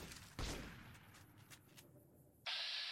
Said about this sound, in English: And there's a lobotomite peppering me with bullets.